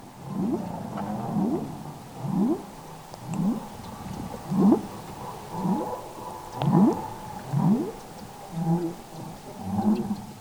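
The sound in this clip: Whale pulsed calls used for close-range social interaction repeat at roughly one-second intervals. Each call is a short, rough, rising sweep, and the series comes fairly loud and alone with no other sounds.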